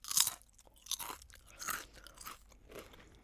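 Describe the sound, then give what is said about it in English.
Crunchy chip being chewed, several crisp crunching bites in an uneven rhythm, fairly faint, with no talking. “last time you guys were very certain that was a chip. Are you sticking with chip? Yep. You are 100% correct. Yes. That was a chip.”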